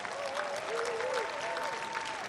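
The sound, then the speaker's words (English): A round of applause for a speaker's wife during a tribute speech: a fairly soft, even wash of clapping that continues steadily throughout. “And lastly, we do have to give another round of applause for his lovely wife, for Jean Brown, for supporting him.”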